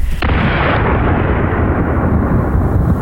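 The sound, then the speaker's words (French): A huge impact explosion as a fireball crashes to earth: a sudden burst at the start that swells into a loud, sustained, deep roar and rumbles on unbroken to the end, no voices. “une gigantesque boule de feu illumine le ciel pendant une dizaine de secondes, puis s'écrase.”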